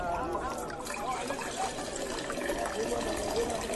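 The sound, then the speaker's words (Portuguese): Water being poured to fill jars, a steady rushing trickle that runs throughout without break, fairly faint. “E eles encheram os potes até a boca.”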